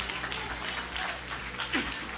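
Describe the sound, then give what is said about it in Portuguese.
Clapping from a church audience applauding for Jesus, a steady, dense patter of many hands that carries on throughout without pause. “Bate palma para Jesus.”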